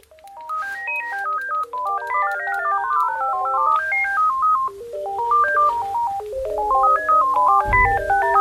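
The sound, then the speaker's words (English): Two melodic electronic phone ringtones play at once, their bright beeping tunes overlapping out of time and out of tune with each other, loud and continuous with no talk. “This is the sound of the phone.”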